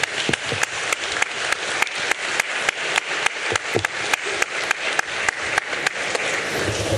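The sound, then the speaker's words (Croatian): A crowd at a village gathering in Babina Greda gives a big round of applause to honour the people who helped save property. The clapping is dense and steady, with regular louder accents throughout. “Pa molim za njih jedan veliki aplauz i možemo biti sretni što imamo.”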